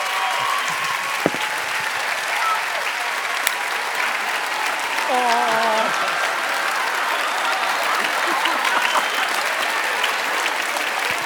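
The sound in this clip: Church audience applauding as a professional basketball player is welcomed, with sustained, even clapping that runs for about eleven seconds and brief cheering voices that stand out midway.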